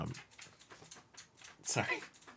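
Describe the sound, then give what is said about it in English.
Faint sounds of a dog: a run of quick, regular soft bursts, then one louder, sharper burst near the end. “I know my mic is picking up my dog right now.”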